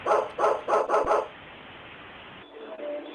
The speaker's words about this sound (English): I have a puppy dog.